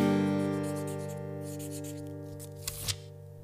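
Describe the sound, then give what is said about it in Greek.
Pen scratching as it writes on small paper notes, a soft continuous rasp beneath a steady sustained tonal music bed, with a couple of brief louder scrapes near the end. “Γυρνάω στις Αθήνα, στη σοκάκια και γράφω όλα τα εσωψυχά μου σε χαρτάκια.”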